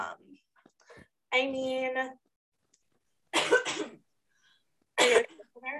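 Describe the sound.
Wet, phlegmy coughs and throat clearing from a person come in a few short, harsh bursts separated by silence, one drawn out and more voiced than the others.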